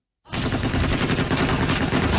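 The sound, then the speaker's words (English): Heavy machine guns mounted on pickup trucks fire in Yemen, a loud, dense stream of rapid automatic fire that starts abruptly after a brief silence and continues without pause. “Video released by Saudi-backed forces shows fighters in pickup trucks mounted with heavy machine guns firing on unknown targets.”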